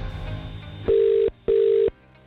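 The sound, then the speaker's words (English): Telephone ringback after a call is dialed: two steady, tonal rings about half a second each, separated by a short gap and following a low, buzzing line noise. “All right, here we go. We're dialing up again.”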